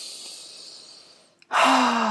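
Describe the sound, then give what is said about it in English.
A long, deep breath, loud and airy, begins abruptly after a short pause that follows a fainter steady hiss, with a low steady tone sounding beneath it. “let's all take a nice long deep breath.”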